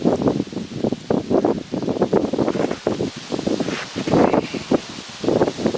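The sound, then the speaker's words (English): Gusty wind blows outdoors at a rifle shooting session, buffeting the microphone with loud, fluctuating rushes and rustling that rise and fall continuously. “Now the wind's going to decide to blow the stock.”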